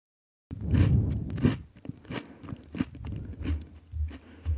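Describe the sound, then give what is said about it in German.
Crunching and chewing of chocolate crisps being eaten, a dense run of irregular crisp bites and grinding chews, fairly loud and close throughout, with no talking. “Na, schmeckt's? Leckere Schokokrossis hier.”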